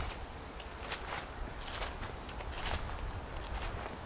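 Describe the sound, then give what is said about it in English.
An animal's feet rustle and crunch through dry leaves in soft, irregular steps, faint and continuous with no talk over them. “You might hear Yoro's feet in the leaves there.”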